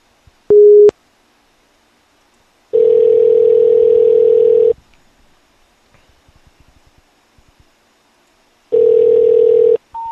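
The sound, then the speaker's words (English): Telephone ringback tones while calling a number that turns out to be disconnected: a short low steady tone, then two longer identical steady tones separated by silence, ending with a higher tone at the very end. “Just make sure you don't dial the same number. It's a different number.”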